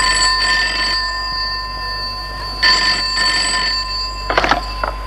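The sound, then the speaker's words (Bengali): A telephone rings in a few bright, trilling bursts separated by short pauses, loud and alone, with a brief extra rattle near the end. “দেখো, phone এলো কার?”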